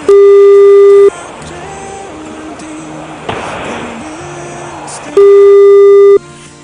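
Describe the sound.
Telephone ringback tone on an outgoing call: two loud, steady, mid-pitched tones of about a second each, separated by roughly four seconds of faint background noise.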